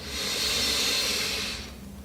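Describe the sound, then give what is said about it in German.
A deep breath drawn in during a group guided breathing exercise: a long, steady, airy hiss that lasts about a second and a half, then trails off, with no talking. “Wir nehmen jetzt alle zusammen einen tiefen Atemzug und atmen ein”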